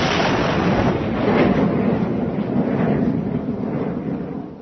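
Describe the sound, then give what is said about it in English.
A guided missile launch sound effect gives a loud, sustained, rumbling roar with broad noisy texture, lasting unbroken for the whole few seconds. “Point the whole of this guided nephew to Moscow, and off we go. Fire!”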